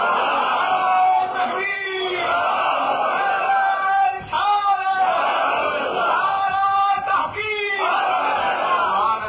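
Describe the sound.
A large crowd of voices chanting a religious slogan together at a Muslim gathering. The chant comes in a few loud, sustained swells with brief dips between them.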